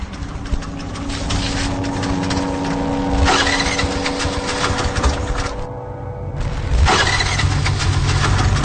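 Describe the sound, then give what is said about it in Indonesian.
Motorcycle engine struggling to start, a loud continuous mechanical rumble and rattle with a couple of sudden surges as it is cranked and revved. “aku bergegas pergi ke garasi untuk mengambil motor dan menghidupkannya. Ketika aku menghidupkan motor, tiba-tiba”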